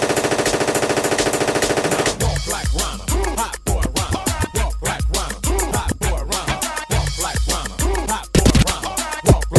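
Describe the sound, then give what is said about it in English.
A machine-gun fire sound effect in a hip-hop twerk dance mix gives a dense burst of rapid shots for about two seconds. A heavy bass beat with sharp percussive hits follows. “Shoot your guns in the air. Three times in the air. Shoot your guns in the air. Machine gun.”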